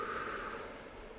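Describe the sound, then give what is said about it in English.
A deep breath drawn in through the body during a calm breathing exercise, heard as one faint, steady airy inhalation that continues for the whole short clip. “We're going to take a breath in, a balloon breath in.”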